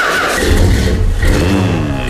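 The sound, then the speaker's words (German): A DeLorean car engine starting, producing a loud, steady low rumble with broad hissing roar over it that holds throughout, with no voices. “ist die Frage, was der Fluxkompensator und der DeLorean noch hergeben. Ich guck mal, ob er noch startet überhaupt.”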